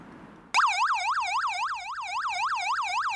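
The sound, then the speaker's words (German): A police car's yelp siren, a special signal telling the vehicle ahead to stop rather than the usual two-tone horn, bursts in after a brief quiet and warbles rapidly up and down in a loud, steady, regular rhythm. “Es hat nicht das Martinshorn, sondern so ein spezielles Signal, dass derjenige, der vor uns fährt, halt anhalten soll. Und das hört sich so an.”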